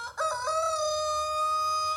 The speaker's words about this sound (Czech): Zakokrhal kohout.